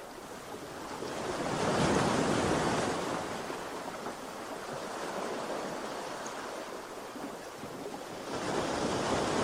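Ocean waves break in a steady roar of broad, rushing surf that swells and recedes in slow surges, with a low rumble of wind noise. No voices are heard.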